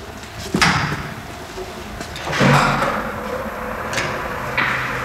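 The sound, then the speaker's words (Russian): A barred metal door opens onto a stairwell landing. A sharp knock comes first, then a louder clanking scrape, both over a faint steady background. “Выходит из зарешетчатой двери на лестничную площадку.”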